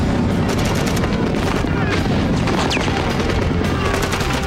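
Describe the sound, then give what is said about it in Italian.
Loud, dense gunfire at the start of a battle, a continuous roar of overlapping shots and bursts that stays intense for the whole stretch without pause. “Improvvisamente sentimmo degli scatti metallici. E la battaglia ebbe inizio.”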